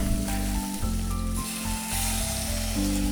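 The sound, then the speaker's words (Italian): Loud, dense sizzling of squid frying in a pan as brandy is poured in and flambéed, a steady crackling hiss that holds throughout with a few brief dips. “adesso facciamo sfumare col brandy. Andiamo a infiammare. Facciamo flambè.”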